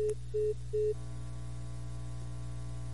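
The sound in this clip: A telephone line tone follows a dropped call: three short, even beeps at a middle pitch over a constant low hum, which then drones on alone.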